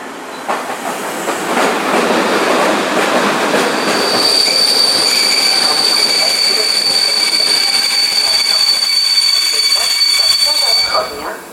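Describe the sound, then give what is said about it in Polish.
A train pulls in at a platform track in Kraków. A loud, steady rumble and clatter runs throughout, and piercing, sustained wheel squeal joins midway and holds to the end. “stację Warszawa Centralna, Warszawa Zachodnia, Włoszczowa Północ, Miechów, Kraków Główny wjedzie na tor 10 przy peronie 1. Planowy odjazd pociągu o godzinie 9:48.”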